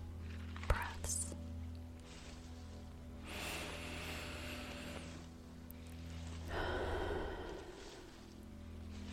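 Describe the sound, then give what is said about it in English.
Slow deep breaths are taken during a guided breathing exercise, heard as a few soft, faint breathy rushes, each lasting a second or two and separated by quiet pauses. “Maybe you'd like to breathe along with me as I take three deep breaths.”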